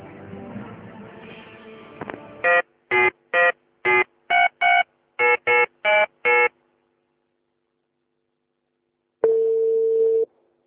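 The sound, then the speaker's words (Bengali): A telephone call is dialed: ten crisp touch-tone beeps in a quick, even run, then a pause and one long steady tone, after a brief stretch of low noise at the start. “প্রিয় শ্রোতা, আমরা এই মুহূর্তে একজনের সাথে ফোনে কথা বলার চেষ্টা করছি, চলুন দেখা যাক কি ঘটে।”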